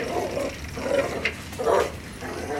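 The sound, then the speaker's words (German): A dog growls and snarls at a man's leg on an uphill road in a headwind, with a few rough, low bursts rising over a steady background of rushing noise. “Verdammter Köter, hau ab! Weg von meinem Bein, du!”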